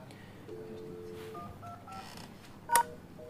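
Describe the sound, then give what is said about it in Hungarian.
Telephone touch-tone dialing of extension 2525 on an office phone system: a short series of faint keypad beeps, then a brief, louder click. “Tárcsázom a 25-25-öt.”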